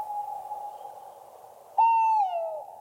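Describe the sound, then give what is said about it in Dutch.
A male tawny owl hoots at night: a long, soft, steady hoot, then a louder hoot that quavers and slides slightly downward. “dit is een mannetje bosuil, toch? Ja, dit is een mannetje bosuil.”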